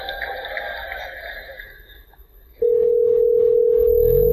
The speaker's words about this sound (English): what you're going to hear is the Google Assistant actually calling a real salon to schedule the appointment for you.